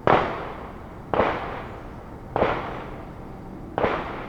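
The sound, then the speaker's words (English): Four sharp gunshots come from a nearby shooting range beside a residential neighborhood. Each bang has a hard attack and a decaying tail, and they are spaced evenly at roughly one-second intervals, with no talking. “So we're in Marietta Terrace, so we're literally like another fence line apart from us and the shooting range right now.”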